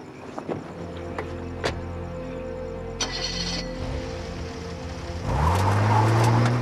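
A car drives off, its engine revving higher and louder in the last second or so as it pulls away, after a stretch of low idling rumble.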